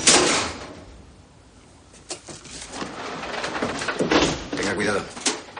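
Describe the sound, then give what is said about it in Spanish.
A door being opened in a building over 100 years old, leading into an artist's studio, heard as several clunks and scrapes over a steady background hiss. “abre la puerta”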